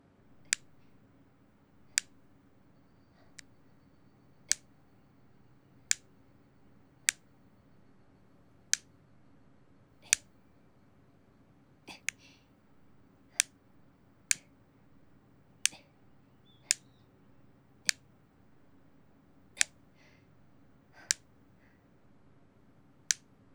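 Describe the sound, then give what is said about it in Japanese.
Nail clippers trimming a boy's hard fingernails: many crisp, isolated clicks spaced a second or two apart, sharp and clear against a quiet, low background. “あんまり深爪しちゃうと変な風に伸びて指を傷つけることがあるので、揃える程度に。”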